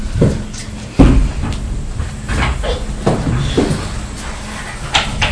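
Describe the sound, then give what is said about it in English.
Thuds of a child kicking doors at home: a few sharp, loud knocks spaced irregularly over a steady low background rumble. “don't kick the doors”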